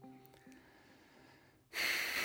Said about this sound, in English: That was a deep breath.